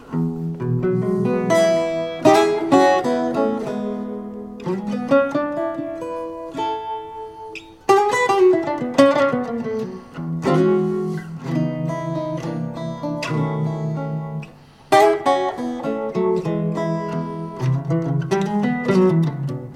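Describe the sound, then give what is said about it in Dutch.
Guitar played through an amp with a microphone signal blended in and a little tremolo, its strings about two years old; picked melodic phrases and arpeggiated chords ring out clearly alone, with strong accents and short pauses between phrases. “Zal ik het laten horen? Ja, is graag. Dit is echt met een beetje tremolo.”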